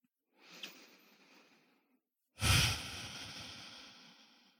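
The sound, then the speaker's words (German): A slow, deep breath during a guided yoga meditation, with a soft, airy inhale followed after a short pause by a louder, rushing exhale that gradually trails off. “Dann atme ein paar Mal tiefer ein und aus in dein Herzzentrum jetzt.”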